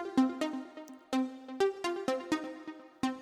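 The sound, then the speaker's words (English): Synth piano pluck tones played from MIDI in a piano roll, more synth than piano: a steady run of many short, bright plucked notes, most on one pitch with a few higher ones, each with a sharp attack and quick decay, with no voices. “And this time I've got this piano pluck sort of sound, and it sounds like this.”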